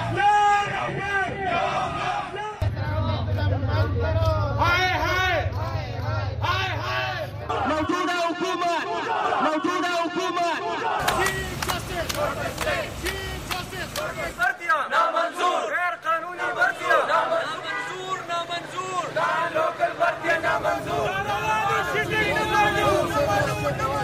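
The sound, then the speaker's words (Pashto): Crowds at protests in Pakistan demanding their rights, loud massed shouting and rhythmic chanting in a series of abruptly cut segments, with raised voices carrying throughout. “دا په پاکستان کې د مختلفو هغو مظاهرو غږ دی چې خلکو د خپلو حقونو د غوښتنو لپاره کړی دي.”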